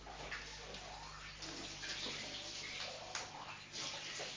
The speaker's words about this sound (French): Maman va rincer la gourde.